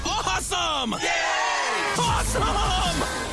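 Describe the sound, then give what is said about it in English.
A short show jingle of loud cheering and whooping voices that shout excitedly in a few quick bursts. “Oh, wait. I have a jingle for that now. We got a new jingle.”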